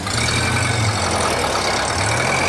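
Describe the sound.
An old car's engine running with a continuous, rough, noisy rumble that holds a steady loudness throughout, with no breaks or pauses.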